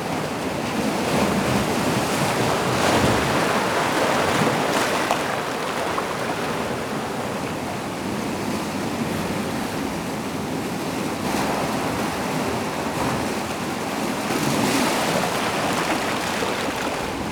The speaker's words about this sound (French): La marée est montante. Je m'assois. L'océan